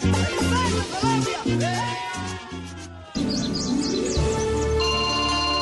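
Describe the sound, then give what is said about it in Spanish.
Mobile phone ringtone for an incoming call: after a festive music passage with steady bass chords, a bright, chirpy electronic melody of quick high-pitched notes plays loudly over sustained tones. “¡Mamá, me está llamando Papá Noel!”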